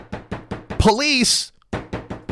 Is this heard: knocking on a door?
yes